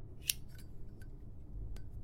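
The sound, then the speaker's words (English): A cigar is cut with one sharp, crisp snip near the start, followed by a few faint, light clicks over a quiet background. “Captain cut a cigar and passed it over.”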